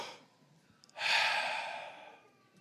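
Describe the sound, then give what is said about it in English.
A single deep breath taken during a church sermon. A long, airy rush of breath starts abruptly about a second in and slowly tapers away, faint and heard alone. “Now, everybody take a deep breath.”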